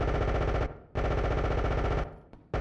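Rapid automatic gunfire in a few sustained bursts with brief gaps between them, loud and harsh throughout, and a short burst starting at the end. No voices are heard.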